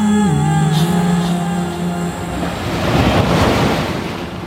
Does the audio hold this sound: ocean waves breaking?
yes